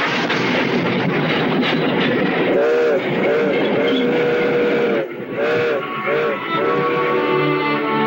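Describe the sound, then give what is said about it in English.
A train pulls out and rolls across windswept prairie, its steady rumble and clatter carrying a few loud, sustained whistle blasts in the middle and later stretch. “Jonas leads his horse up the ramp, and the train pulls out. As night falls, the train rolls across the windswept prairies.”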